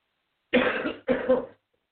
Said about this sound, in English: She coughs directly in. Directly.